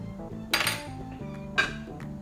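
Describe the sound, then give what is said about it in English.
A utensil scrapes the last rice out of a pan after a vegetable and rice stir fry with soy sauce: two bright scraping bursts with lighter metallic clinks between them. “Scrape the final bit of rice out.”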